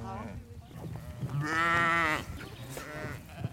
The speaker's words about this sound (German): Genau diese Hügel beweidet auch Schäfer Heinrich Grieb mit seiner Herde.